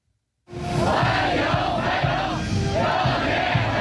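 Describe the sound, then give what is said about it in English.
Chinese teenagers chant a welcome in unison while waving Chinese and American flags to greet a president arriving in Beijing. The loud, continuous crowd voices rise and fall in repeated rhythmic phrases, with no solo talk. “that's the sound of Chinese teenagers chanting welcome, waving Chinese and American flags in unison, greeting President Trump”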